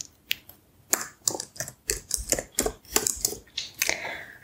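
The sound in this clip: Typing on a laptop keyboard in a soft-spoken ASMR session: many crisp, irregular key clicks and taps in uneven bursts, fairly quiet and with no talking.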